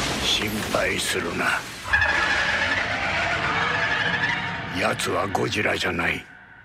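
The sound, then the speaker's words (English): Rodan monster screech from a Godzilla film trailer, a sustained shrill cry lasting a few seconds, with voices talking before and after it. “But that sound effect, that sounds to me like Rodan. That's the big flying one.”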